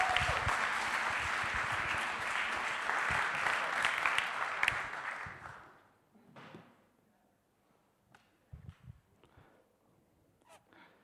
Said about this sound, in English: Put your hands together and welcome Adam Heather.